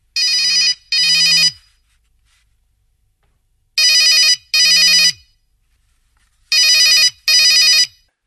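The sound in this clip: A telephone bell rings in three evenly spaced double rings, each pair made of two bright, loud trilling bursts, with silence between the pairs.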